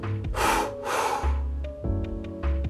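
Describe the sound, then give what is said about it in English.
Two long exhales out through the mouth during a guided breathing practice, heard as soft, airy rushes of breath one right after the other, over low sustained tones that continue afterward. “Now inhale through the nose. Fill the body up. And now let 2 exhales out through the mouth.”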